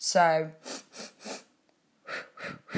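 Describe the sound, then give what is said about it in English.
Paced breathing, inhaling through the nose and exhaling through the mouth: after a short voiced sound, airy breath pulses come in two evenly spaced groups separated by a brief silence. “you can also do like this four inhales through the nose and four exhales out the mouth.”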